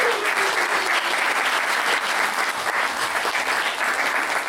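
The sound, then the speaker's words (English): Audience applause at a storytelling event: dense, steady clapping that holds at an even, loud level for the whole stretch, with no talk over it. “Thank you so much, round of applause!”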